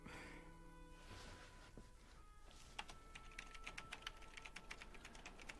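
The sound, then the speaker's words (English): Keyboard typing added as an exaggerated sound effect for a film scene set at a private airport in Westchester: many quick, quiet keystrokes begin after a couple of seconds and continue steadily to the end. “So you added in all the sound effects later of her typing constantly, right? Yeah, so you just tried to exaggerate it a little bit.”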